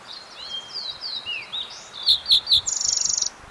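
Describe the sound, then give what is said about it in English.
A fox sparrow sings indoors in a bathroom. Soft whistled phrases give way to three loud, clear notes and end in a quick, buzzy trill over a steady faint hiss. “fox sparrow singing in the bathroom”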